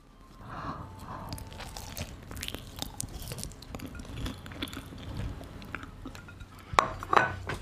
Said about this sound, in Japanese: じゃあちょっとかじるよこれ。いただきます。